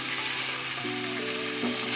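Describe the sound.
Meat rolls fry in a pan with a steady, bright sizzle and hiss that holds evenly throughout, with no voices.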